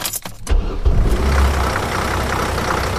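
Vehicle engine running while the vehicle moves, a mobile university workspace with a steering wheel and hydraulic doors: a loud, steady low rumble with broad road noise, after a few brief knocks in the first half second.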